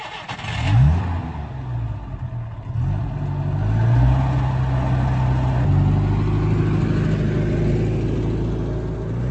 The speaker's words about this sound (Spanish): Hay que tener paciencia. Tarda un poco, pero al final el motor siempre arranca.